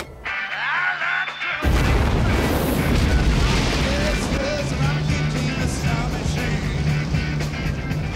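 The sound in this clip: A rocket lifts off after a countdown with a sudden, loud roar that cuts in after a quieter opening. A dense, rumbling blast then holds steady and powerful to the end.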